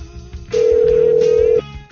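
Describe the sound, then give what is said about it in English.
A phone call ringing through to voicemail: a single steady ring tone, about one second long, sounds loud and even over a low background hum. “Let's call it back. Hang on. I got to hear the Dead's voicemail. Don't pick up the Dead.”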